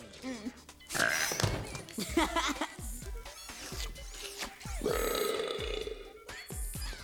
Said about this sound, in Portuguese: Ah, o mais novo refrigerante para arrotar. Ele garante um arroto por gole.